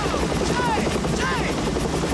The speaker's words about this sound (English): Miller and Phillips watch their boat lowered by a chopper.